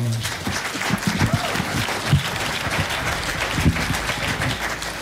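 Audience applause at a live jazz performance where an alto saxophonist is featured. Dense, continuous clapping fills the whole stretch, with a few slightly louder bursts standing out along the way.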